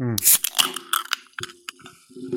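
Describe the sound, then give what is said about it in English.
A can of real-fruit-juice soda cracks open with a sharp snap and a short fizzy hiss, then a few faint clicks follow as a voice speaks quietly. “That was a great crack. Wow. It's a crispy can.”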